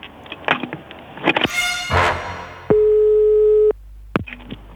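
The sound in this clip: Telephone tone while placing a call: a few clicks and bursts of handset noise lead into a steady mid-pitched electronic tone lasting about a second, followed by more clicks.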